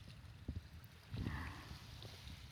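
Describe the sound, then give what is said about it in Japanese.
Faint ocean waves wash and surge as someone speaks toward the sea, a soft rushing swell that builds briefly around the middle before settling back into a low, steady hiss. “海が喋るのか？いいえ、波でお返事してくれるの。”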